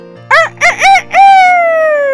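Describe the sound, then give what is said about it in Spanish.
A rooster crows loudly and alone: three short, rising calls followed by a long, drawn-out final note that slowly trails off in pitch. “Cuando la serpiente estaba a punto de morderlos, el gallo cantó.”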